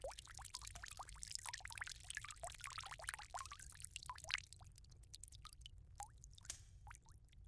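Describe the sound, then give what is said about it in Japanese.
Wet squishing and dripping from a towel soaked in lukewarm water, pressed and rubbed during an ear massage: many soft, crackly, uneven bursts that run continuously and stay quiet throughout. “まずはこちらのぬるま湯につけたタオルでお耳をマッサージしてまいりますよ。”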